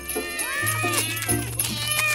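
Several cats meow together, overlapping cries that bend up and down in pitch, heard over a low steady hum throughout.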